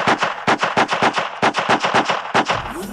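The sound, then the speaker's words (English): Gunshots ring out in quick succession: a fast, loud burst of many sharp cracks in a rapid automatic rhythm, with no voices. “So I shot them!”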